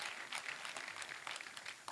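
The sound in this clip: Faint applause from a church audience: a dense, steady wash of many hands clapping with no clear individual beats.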